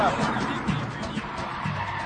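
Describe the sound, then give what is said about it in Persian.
A car, a Mercedes-Benz, approaches and pulls up, giving a steady rushing rumble of engine and tyre noise that runs through the whole stretch without a clear break. “یه ماشین داره به اونا نزدیک میشه.”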